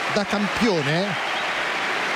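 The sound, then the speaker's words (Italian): Crowd applause at a professional tennis match after a long rally, a steady hiss of clapping heard beneath an excited male commentator speaking over it. “da campione l'applauso del pubblico”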